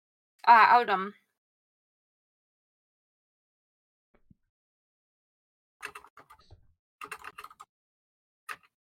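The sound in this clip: Typing on a computer keyboard in short, quick bursts of light clicks with pauses between them. A brief voice comes earlier, and the keys then fall silent before one last tap.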